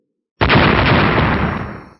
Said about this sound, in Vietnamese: Một trận tiếng nổ vang kịch liệt truyền đến